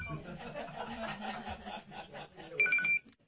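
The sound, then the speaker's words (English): A phone rings with a brief high electronic tone near the end, cutting through ongoing talk as people speak throughout. “that's my phone.”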